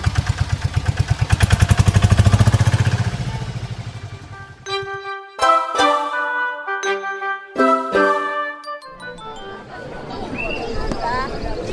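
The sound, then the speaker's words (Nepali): A tempo three-wheeler's engine starting, with rapid loud low-pitched pulses that gradually fade, followed by a bright tinkling jingle-like melody with clatter. “ल मैले tempo start गरेँ है त”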